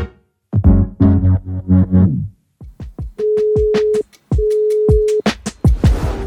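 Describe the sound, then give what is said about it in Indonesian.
A telephone call being dialed out: a run of sharp clicks, then two long, steady ringing tones separated by a short gap, with a burst of noise at the end. “Saya berdua nih ngepon Mas Hadi.”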